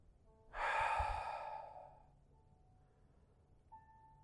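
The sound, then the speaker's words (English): A single long exhale, partly voiced like a sigh, swells quickly and then tapers off over about a second and a half. Quiet follows, with a faint sustained tone entering near the end. “Let's exhale”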